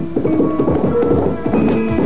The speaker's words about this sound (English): saddling my horse, rode for the alchemist's isolated home.